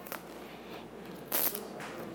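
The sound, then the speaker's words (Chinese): Paper seal strips are torn open on the back of an iPhone 13 box. A few faint, brief crackling rips stand out, the clearest a short burst in the middle. “可以看到这边的外包装少去了过往的塑胶封膜，取而代之的，而是背面这上下两条的纸质封条。我们只要沿着这绿色的箭头往这边撕开，”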